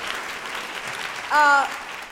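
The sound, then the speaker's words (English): Audience applause at a live comedy show in Sydney: a steady wash of clapping runs through the whole stretch, with a brief louder burst near the end. “Please give him a round of applause.”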